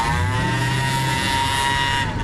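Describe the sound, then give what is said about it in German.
A big car's engine drones as it drives away, a loud, steady motor hum with layered tonal harmonics over a low rumble, heard alone without voices. “Fahr weiter, du! Fahr weg mit deinem dicken Auto! Mach ich doch gerade.”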